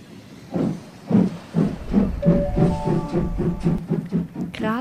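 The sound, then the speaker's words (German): Train station platform ambience at Graz main station, platform 2: a train rolling through with a steady clattering rhythm and a hiss, plus a thin, sustained squeal partway through. “Graz Hauptbahnhof, Sie befinden sich auf Bahnsteig 2.”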